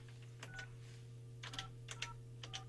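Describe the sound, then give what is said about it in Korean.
A telephone being dialed for a call: a few short keypad tones in separate bursts, faint, over a steady low hum. “제가 그럼 동생한테 전화를 지금 한번 해볼게요. 한 통화 더 할 수 있는데”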